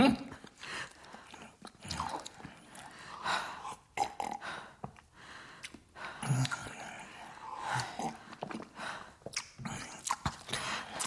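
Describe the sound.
Someone eats breakfast with wet chewing, biting and smacking, irregular and moderately loud, with short pauses between mouthfuls.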